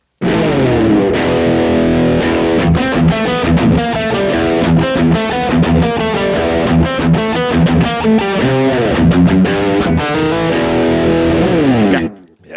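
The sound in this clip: A heavy distorted electric guitar riff plays loud and steady for about twelve seconds, with chugging rhythmic chords and shifting notes, then cuts off abruptly.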